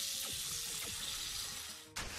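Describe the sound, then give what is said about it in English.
A video game battle effect for a holy water item makes a faint, watery hissing wash with a few quick descending swooshes, then cuts abruptly into a brighter burst near the end. “Lunas used Holy Water.”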